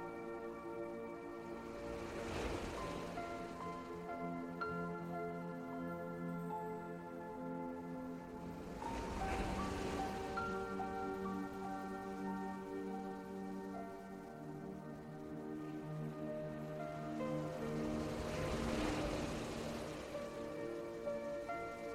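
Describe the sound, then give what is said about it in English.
Sea waves wash in three slow, soft swells, each rising and fading, under quiet sustained musical tones. “as you continue to listen to the sound of the sea and relax more and more deeply.”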